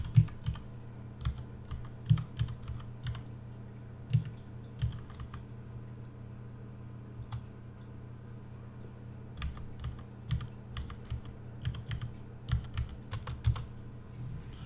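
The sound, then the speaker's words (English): Keys clatter on a computer keyboard as a Skype name is typed in: many quick, faint taps in uneven bursts and pauses over a steady low hum, with no talking. “Give me a second, guys. I'm gonna drop out for a second while I type in the Skype name.”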